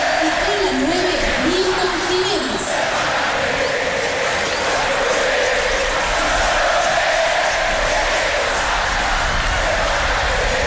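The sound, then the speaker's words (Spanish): A football crowd sings and chants in a stadium, a loud, dense roar with a melodic chant rising out of it in the first few seconds before settling into a steady massed wall of voices. “Canta el público”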